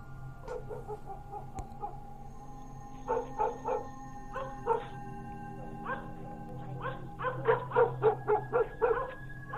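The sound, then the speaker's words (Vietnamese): Village dogs in the countryside bark in many short, sharp bursts grouped in irregular clusters. The barking grows louder and denser toward the end over a faint, steady background hum. “bỗng những con chó quê cứ chu lên từng tiếng một dứt quãng, hoặc cứ sủa nhấm nha nhấm nhặng”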